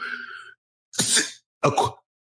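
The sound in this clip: A person sneezes after a brief moment of talk, giving two sharp, explosive bursts in quick succession that are loud and breathy against silence.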